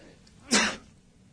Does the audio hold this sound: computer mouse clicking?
no